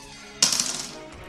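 Dice rolled for a tabletop role-playing game, two d8s and a d6: one sharp clatter, then a quick rattling that fades within half a second, heard alone.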